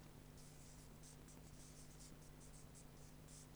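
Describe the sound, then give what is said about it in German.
A word being written by hand: faint, quick scratching strokes in short bursts, with a steady low hum underneath. “Jetzt schreibe ich mal hier ein Wort hin.”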